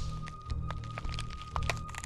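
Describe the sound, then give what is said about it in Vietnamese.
Neck bones cracking, a horror-story sound effect: a quick, irregular run of sharp, dry cracks and snaps over a low steady hum, with no talk. “Chỉ nghe rắc rắc mấy tiếng, đầu của lão đã bị dặn ngược ra đằng sau”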